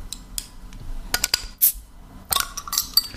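A beer bottle being opened: scattered metallic clinks and rattles, then a short sharp hiss near the middle, followed by more bright glassy clinks. No one speaks.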